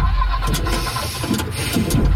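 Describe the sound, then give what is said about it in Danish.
A leased car breaks down on the Motorring 3 ring road, its engine failing to start. The mechanical whirring is rough and steady, broken by a few harsh bursts, and plays alone without speech. “Lad os sige, at din leasingbil bryder sammen midt på Motorring 3.”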